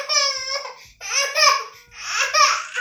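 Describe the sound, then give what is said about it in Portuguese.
A baby crying in three loud, high-pitched wailing bursts separated by brief breaths, each cry strained and wavering. “Ui, gente, vai ter bebê chorando.”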